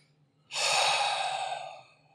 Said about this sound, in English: Deep breath.